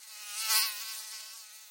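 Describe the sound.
Mosquitoes and flies in a house make a high-pitched, whining buzz. The continuous drone swells to a peak, then eases off. It is fairly soft and heard on its own.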